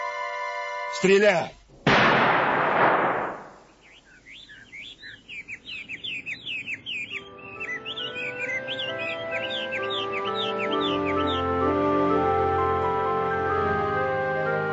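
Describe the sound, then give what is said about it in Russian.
A sharp gunshot blast during a bird hunt, with woodcocks as the quarry, fades in a decaying rumble. High, twittering bird chirps follow, then soft music rises underneath. “Стреляешь, как заправская охотница.”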